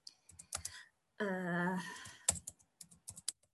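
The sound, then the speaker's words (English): Typing on a computer keyboard: irregular clusters of light, crisp keystroke clicks, fairly faint, that pause while a brief voice sounds midway before the tapping resumes in quick scattered strokes. “Okay, so the volunteers were, let me just type them in.”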